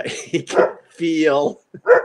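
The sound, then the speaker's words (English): A dog barks in a few sharp, loud bursts broken by one longer, drawn-out whining yelp, agitated and restless, with short gaps of quiet between the calls. “My dog actually doesn't bark this much usually”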